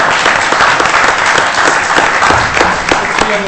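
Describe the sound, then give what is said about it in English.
Round of applause from colleagues at a department meeting for a coworker's birthday, a loud, steady clatter of many hands clapping throughout without pause. “we ought to give a big round of applause for Chris”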